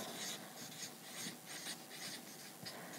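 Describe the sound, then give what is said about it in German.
Faint scratching of a pen writing by hand: a few short, dry strokes and scrapes come in an uneven rhythm over a quiet background. “Ich schreibe das jetzt hier hin.”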